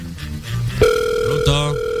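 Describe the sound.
A telephone rings for an incoming call on a live call-in radio show. A brief voice comes first, then a steady, clear electronic tone begins abruptly and holds loudly to the end.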